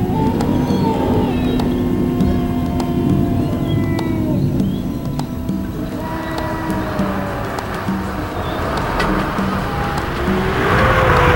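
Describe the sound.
Steady engine and road drone of a car driving at night in bad weather on Halloween, a dense continuous rumble with thin wavering tones drifting above it.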